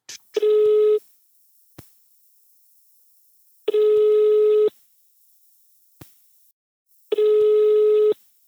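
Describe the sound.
Telephone ringing tone on an outgoing call to a brother: three long, steady buzzing rings, each about a second, separated by silence with a few faint clicks between them.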